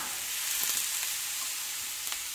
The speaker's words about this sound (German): Das Abendessen kochen heute die Kinder gemeinsam. Grünkohl mit Rindfleisch in der Pfanne angebraten.